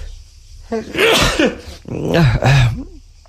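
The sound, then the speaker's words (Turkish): A person sneezes in two loud bursts. Each is voiced, with a wavering pitch, and breaks into a sharp, noisy release. “Hapşırasım geldi şimdi. Hapşıracağım canlı yayında.”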